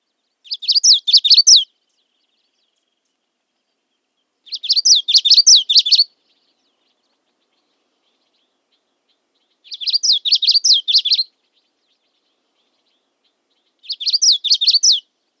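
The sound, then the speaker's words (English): Common yellowthroat songs: four separate bursts of high, rapid, rhythmic warbled phrases, each about one and a half seconds long, with several seconds of silence between them. “Here are a few more examples of the common yellowthroat song. You can hear the variation in the songs, but also the elements that make it distinctive.”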